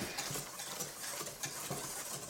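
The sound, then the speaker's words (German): Cake batter being stirred by hand while melted butter is poured in. The result is a continuous soft, wet churning and scraping texture with small ticking clicks, steady and even throughout. “So, und ich gieße dir jetzt so schluckweise die flüssige Butter noch, ne? Und du rührst nur.”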